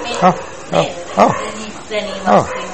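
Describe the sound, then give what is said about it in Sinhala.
A dog barks in five short, uneven yelping bursts with gaps between them, alongside talk. “ඒ බල්ලා පුරණ එක විදර්ශනා කරන්න පුළුවන්. කොහොමද විදර්ශනා කරන්නේ? සද්දේ ඇහෙනවා.”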